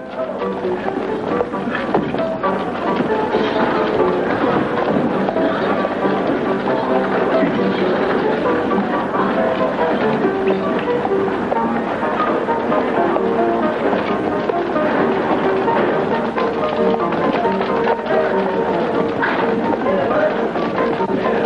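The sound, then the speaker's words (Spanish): A busy town street at night in the 1939 western Stagecoach: a dense, continuous bustle with the clatter of horses' hooves running steadily throughout. “Por la noche llegan al Orbur y recorren una calle muy transitada.”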